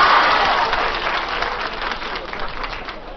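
Studio audience applause as guests leave a live show: a dense, steady crowd clapping that starts strong and gradually eases off a little.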